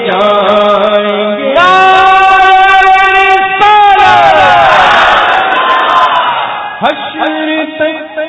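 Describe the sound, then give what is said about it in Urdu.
A crowd chants the religious slogan Ya Rasool Allah at an Islamic gathering, with many voices raised together in a few loud, sustained phrases. Each phrase has a strong, tonal ring. “یا رسول اللہ کا نعرہ لگاتے”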